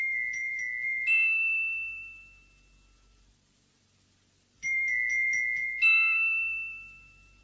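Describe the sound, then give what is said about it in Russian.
Telephone ringing in two bursts separated by a pause, each a bright trilling tone followed by a higher chime that rings out and fades. “Кажется, телефон.”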